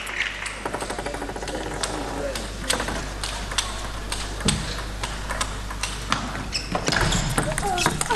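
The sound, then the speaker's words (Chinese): A table tennis ball is struck during a serve-and-attack rally in a women's match between China and Romania, including a forehand smash. Many sharp, quick clicks of bat and table hits sound under continuous commentator speech. “又是一个发球抢攻，正手的爆冲， 好球！”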